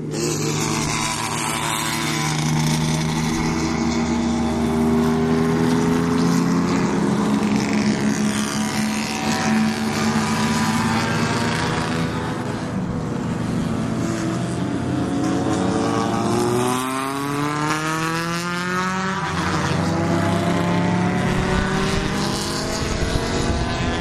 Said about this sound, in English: start of the race. They still have a pace car in front. Coming out of the pit lane.